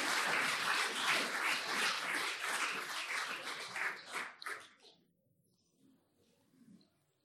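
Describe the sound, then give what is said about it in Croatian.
Audience applause after a project presentation at an event, dense clapping for about five seconds that tapers into scattered claps and near silence. “Evo, bravo, još jedan aplauz.”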